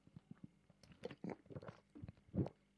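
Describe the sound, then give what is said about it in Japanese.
Faint, wet mouth sounds of someone drinking water: a few soft clicks followed by several irregular gulps and swallows, with no talking. “水を飲みます。”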